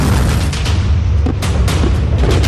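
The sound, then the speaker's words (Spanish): Deep booming roar of a North Korean artillery missile, a loud sustained rumble with a few sharper bursts running through it. “Como este misil que escuchan, Corea del Norte lanzó esta madrugada otros 200 misiles de artillería hacia Corea del Sur.”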